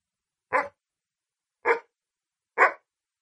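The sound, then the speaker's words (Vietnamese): A white-furred, blue-eyed dog barks loudly in a room, three sharp, separate barks in an even rhythm with silence between them. “Tiếng chó bất ngờ sủa vang khắp phòng, làm ngắt ngang câu hỏi của tôi.”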